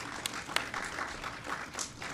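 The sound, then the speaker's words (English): Audience applause at a public event in Buffalo honoring the companies behind a completed project, a steady, fairly soft wash of many hands clapping with a few sharper, louder claps standing out, and no voices. “So let's give AMC and Benchmark a great big round of applause.”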